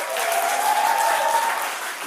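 Audience applause welcoming musician Đức Huy on stage, a steady, dense clapping that stays loud throughout and eases slightly at the end.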